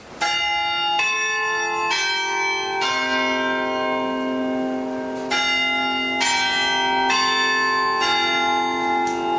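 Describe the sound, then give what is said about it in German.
Westminster chime rung on tower bells above the market square in Halle: a slow sequence of loud, ringing bell strokes about a second apart, each overlapping the long hum of the one before, with no voices. “den Westminster-Schlag, den kennen Sie doch. Ja, so klingt's in Halle. Am Marktplatz vom Roten Turm. Da klingt es so schön.”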